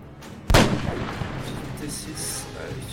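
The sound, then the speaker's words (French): A single sharp pistol gunshot sound effect, played during a tabletop role-playing game session, bursts out suddenly and then fades through a rough decaying tail. “Le coup est parti.”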